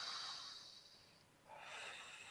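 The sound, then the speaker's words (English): A deep breath taken slowly: two long, soft, airy rushes of air with a brief dip between them, quiet and alone without talk. “Take a breath.”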